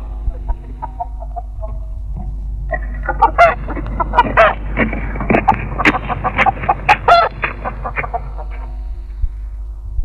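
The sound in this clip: Chicken clucking while being carried: many loud, agitated clucks and squawks in quick, uneven bursts that grow busier toward the middle, over a low steady hum.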